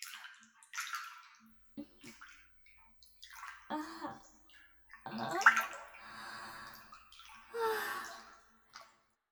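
Water splashing and lapping in an open-air hot spring bath, coming in several faint bursts separated by quiet, with soft sighs and breathy sounds between.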